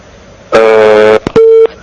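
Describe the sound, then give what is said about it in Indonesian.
A telephone busy tone sounds after a call is cut off: a loud, steady tone burst, a couple of sharp clicks, then a shorter burst of the same pitch. “Nah, kadarullah terputus pertanyaan dari Bapak tadi. Bisa kembali menghubungi kami”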